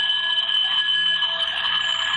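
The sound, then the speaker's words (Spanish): A school bell rings in one continuous, loud electric peal. Its shrill, steady tone holds without a break for the full two seconds. “porque sé que ya sonó la campana y tiene que retomar sus labores”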